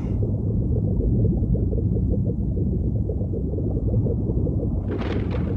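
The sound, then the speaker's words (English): Deep, continuous rumble of an underwater volcano erupting, loud and steady throughout, with a brief hissing surge of brighter noise near the end. “Captain, it's an underwater volcano. This confirms it. That seething mountain still denies rest to the civilization it destroyed thousands of generations ago.”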